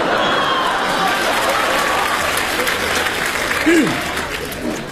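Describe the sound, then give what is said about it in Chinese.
Audience applause at a live Beijing stage show, a dense and steady roar of clapping that stays loud for the whole stretch with only slight swells. “控制控制， 郭金杰上来听听咱这掌声。”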